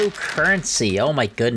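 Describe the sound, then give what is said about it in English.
Coins spill and clink in a brief, bright metallic rattle, mixed under a person speaking excitedly. “you can probably hear all my bitcoins falling out of my pocket right now”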